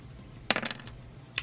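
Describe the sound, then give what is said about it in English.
Dice rolled for an attack roll in a tabletop role-playing game: a short, bright rattling clatter of a few quick clicks, then a single final click, all faint. “Go ahead and roll me an attack roll.”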